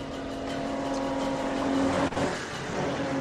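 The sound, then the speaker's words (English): A car engine in a video game drones as the vehicle drives away from a gas station. The broad, steady rumble carries a constant low tone, with a brief dip in level about two-thirds through. “Alright, so they drove away from the gas station.”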